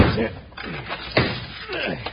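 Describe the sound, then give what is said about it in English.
A big, heavy door slams shut with one sharp, loud thud near the middle, amid quieter sounds before and after. “Close that big door and lock it tight.”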